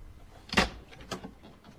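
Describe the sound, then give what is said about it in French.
Knocking on a bedroom door, then the door being opened: one sharp, quiet thud followed by a second, fainter knock-like sound, both set against near silence. “On frappe à la porte de la chambre.”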